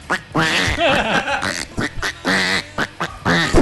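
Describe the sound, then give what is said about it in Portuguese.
Duck quacking: many loud, nasal quacks in short irregular bursts, some clipped and some drawn out, with brief gaps between them. “o Bruninho trouxe o pato”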